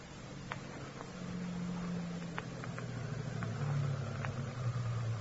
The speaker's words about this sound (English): you jump from the car and wait in the darkness for the car coming down the road from the house.